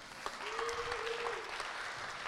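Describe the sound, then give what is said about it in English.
Audience applause fills the opening session of Mozilla Festival 2013 in London as returning attendees clap for themselves. It is a steady, dense wash of many hands clapping at an even loudness throughout. “Now, how many people were here last year at Ravensburn 2012? Oh, there we go. Give yourselves a hand for coming back.”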